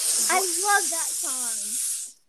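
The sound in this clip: A voice imitates a snake's hiss, making a loud, steady sibilant hiss that lasts about two seconds before cutting off. A voiced sound runs under the hiss.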